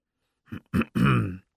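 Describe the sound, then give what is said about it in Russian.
A man noisily clears his throat in three rough bursts: two short, gravelly rasps, then a longer voiced, groaning clear that fades out. No other sounds are heard. “Шумно прочистил он горло”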